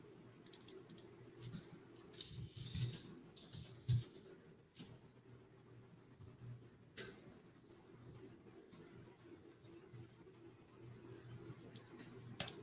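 Faint computer mouse clicks, a few sharp, isolated clicks scattered irregularly over a quiet, steady low hum.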